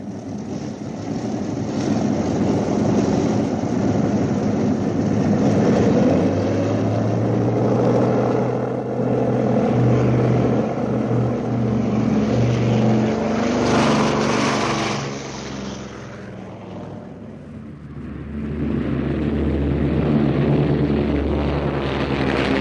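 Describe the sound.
Bomber aircraft propeller engines roar during takeoff with a loud, continuous, throbbing drone that briefly eases partway through and then swells back to full power.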